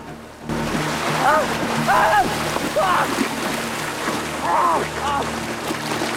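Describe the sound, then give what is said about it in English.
Water splashes and churns steadily as a horse rides into a river dragging a man behind it, a continuous rushing wash with sharper splashes rising and falling throughout. “He rides into the river, dragging Mike behind him. Mike struggles to keep his head above water.”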